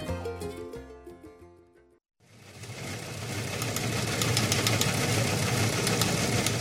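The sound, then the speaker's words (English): An old news wire machine clatters in a steady, dense mechanical chatter, starting just after a short passage of music ends and rising to a constant loud level. “Well, the sound of that old wire machine in the background means it's time for a couple of old wire ripping readers to talk about the stories of the week.”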